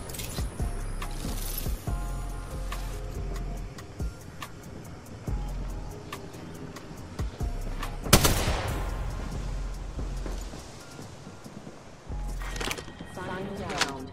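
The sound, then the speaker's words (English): Gunfire and a frag grenade in the video game Apex Legends: sharp shots and rapid bursts with mechanical clicks, then one loud blast around the middle, followed by more scattered shots and rattling. “Frag grenade sent.”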